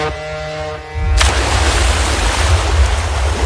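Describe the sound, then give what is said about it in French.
Splash of someone diving into water, a sudden burst that follows a steady tonal hum and opens into continuous rushing, bubbling water noise that lasts to the end. “Allez, c'est parti, on plonge. Allez, on y va.”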